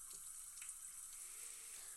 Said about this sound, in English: Pouring it out into a little bit of a cup, of course, well, it does actually get a pretty good head.